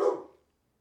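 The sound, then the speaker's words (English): A dog gives one short, sharp bark that fades out quickly and is followed by silence. “Oh, there he goes. Wouldn't be a show without Max barking.”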